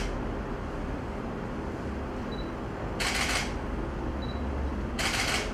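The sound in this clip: A camera shutter fires twice as photos are taken, two crisp, bright mechanical clicks a couple of seconds apart over a low steady background hum.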